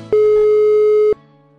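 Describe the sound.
One long, steady, high telephone beep sounds while a call is being placed. It lasts about a second at full loudness, then cuts off, leaving a faint low hum on the line.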